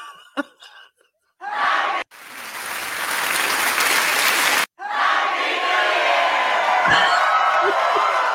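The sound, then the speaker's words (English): Crowd applause with some cheering arrives in loud bursts of dense clapping noise. The sound breaks off abruptly a couple of times, then resumes and continues steadily to the end. “give yourself an applause on that one.”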